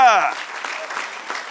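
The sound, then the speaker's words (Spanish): An audience applauding in church. A short burst of a voice comes first, followed by scattered, fairly faint clapping over the remaining second. “Dale otro aplauso al Señor.”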